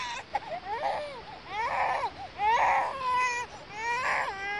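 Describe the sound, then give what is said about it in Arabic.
An infant cries in repeated wailing bursts, each cry rising and then falling in pitch, loud and insistent, with short catches of breath between the wails. “لا حبيبتي لا تبكي”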